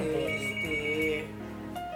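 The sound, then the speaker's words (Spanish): A telephone ringtone announcing an incoming call sounds as a steady electronic tone pattern that holds for about two seconds. “creo que nos está entrando una llamada.”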